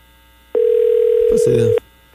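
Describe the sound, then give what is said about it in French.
A telephone tone rings out as a call is placed: one steady, pure, mid-pitched beep lasting just over a second, with voices talking briefly over its final part. “Et là, on appelle T-Bone.”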